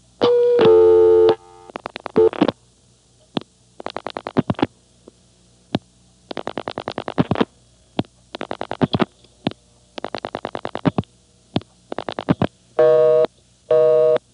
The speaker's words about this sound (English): Okay, notice that it's busy. The call has already gone through.